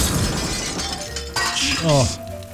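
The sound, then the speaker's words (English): An experimental driverless car in Pakistan crashes into a police van: a sudden impact with shattering, clinking glass, followed by a voice. “An experimental driverless car in Pakistan is on video crashing into a police van”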